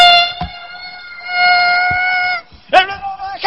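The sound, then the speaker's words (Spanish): A voice imitates the strident guitar of a Christian band's song. It produces a short buzzy tone, then a longer sustained nasal drone, and ends with a rougher, wavering burst. “Y la guitarra hacía...”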